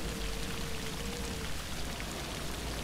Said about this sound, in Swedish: Vinden tjuter. Regnet piskar henne i ansiktet.